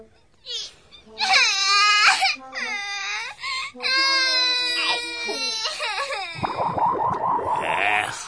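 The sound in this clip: A young child cries loudly in long, wavering wails and sobs, with brief catches of breath between them. The pitch shifts as the crying goes on, and it stays loud throughout.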